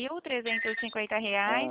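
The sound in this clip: A telephone rings during a call about a loan contract, a tonal, melodic ring in several short bursts with brief gaps between them.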